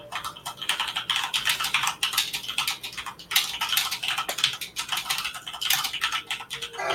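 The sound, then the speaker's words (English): Rapid, continuous clatter of typing on a mechanical keyboard, dense key strikes running steadily without pause and with no voices. “Oh, there's typing. Don't worry about it. I'm gonna worry about it. Silent typing.”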